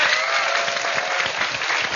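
A studio audience at a recorded TV lecture claps to welcome the professor, a dense, even wash of clapping that stays steady from start to finish.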